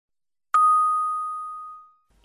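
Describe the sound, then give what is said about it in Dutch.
A single bright bell ding rings out alone, a clear steady tone that holds and slowly fades over about a second and a half before stopping. “Rinkelen.”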